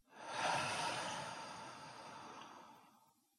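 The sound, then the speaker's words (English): Soft human breathing during a guided relaxation exercise: one slow, airy breath that swells and then fades gradually over a few seconds. It is faint and heard alone. “Again, breathe in and out.”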